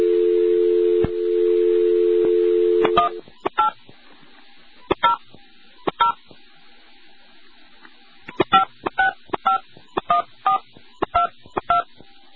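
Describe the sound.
A touch-tone telephone dials a toll-free number. A steady dial tone sounds for about three seconds, then stops, and many short electronic keypad beeps follow in irregular groups.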